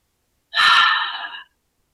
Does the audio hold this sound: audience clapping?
no